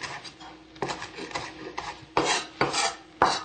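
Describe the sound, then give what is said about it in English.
A knife rough-chops cilantro leaves on a cutting board, making several crisp, irregular cuts with soft rasping scrapes between them and no talking. “And you can just cut down the stem to remove the leaves. And then I usually just rough chop them for the salad.”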